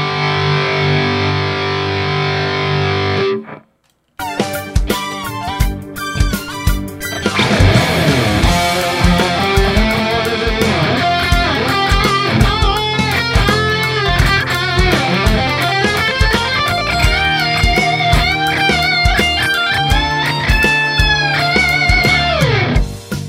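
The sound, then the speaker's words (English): Distorted electric lead guitar being recorded through a Helix amp modeler with no effects: a held tone, a brief silence, then a loud, sustained lead line of many notes with frequent pitch bends. “But it's a pretty distorted sound. So here's me recording the lead guitar.”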